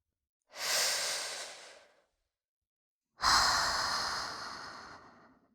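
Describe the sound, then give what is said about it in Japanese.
Deep breathing in and out: two long, steady breaths separated by a pause, the second stronger and rougher than the first, heard alone with no talk. “ほら、深呼吸。吸って、吐いて。”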